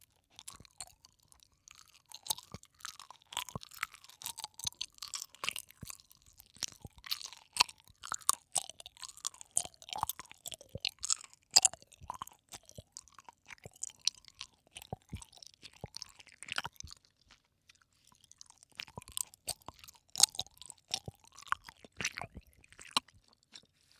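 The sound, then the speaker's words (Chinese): Soft gummy bear candies in mixed flavors are chewed in many quiet, irregular, moist squishes and small crunches, with brief pauses between bursts of chewing and no talking. “这个小熊软糖看起来好好吃。尝一个，应该是不同口味的。好软”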